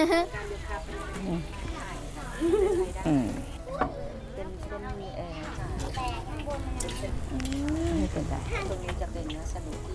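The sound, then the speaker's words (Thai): Sizzling of food frying in oil until cooked, a steady crackling hiss running underneath people talking throughout. “อ๋อแต่อันนี้คือเอามาทอดให้มันสุก ค่ะทอดให้มันสุก”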